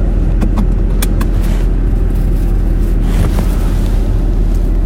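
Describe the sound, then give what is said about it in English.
Steady low road rumble inside a car being driven to work, constant and even throughout, with a few faint clicks near the start. “I'm now in the car.”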